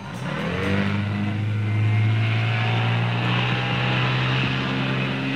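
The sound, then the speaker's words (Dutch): Roaring speedboat engines at international speedboat races near Bellingwolde in Oost-Groningen in summer 1966: a loud, steady low drone with strong harmonic tones that holds throughout with no voices. “En rond Bellingwolde in Oost-Groningen worden in de zomer van 1966 voor de derde keer op rij internationale speedboat races gehouden. En dat klonk ongeveer zo.”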